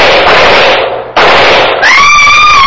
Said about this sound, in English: I was taking no chances. I raised my rifle and...